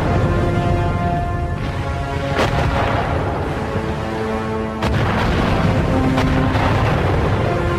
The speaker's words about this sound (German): Artillerie belegt die Widerstandsfester über die Schelde hinweg.